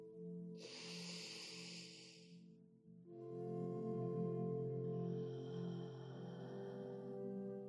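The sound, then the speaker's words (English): Slow, deep breathing during a guided loving-kindness meditation exercise: long, airy, hissing breaths drawn in and let out, quiet and unhurried, over a soft sustained musical drone. “we're going to take three bigger than normal breaths, in for four, and then hold it for a second, and then let it out for six, right now.”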